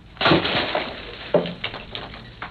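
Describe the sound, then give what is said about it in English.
Hammer smashing open a piñata: two heavy crunching, cracking blows, then a few smaller rattling knocks as the pieces break apart. “I want you to take the hammer and smash open the pinata.”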